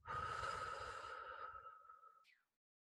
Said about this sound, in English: Now inhale and exhale.